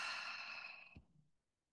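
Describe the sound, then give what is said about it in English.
A single slow exhale through the mouth during guided breathing, a soft, airy sigh that holds steady and then stops, faint and without talk. “Take a breath in, breathe in through your nose, out through your mouth.”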